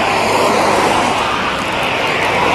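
A small airplane flies overhead, its engine a loud, steady, droning roar that holds evenly throughout, with no other sounds standing out.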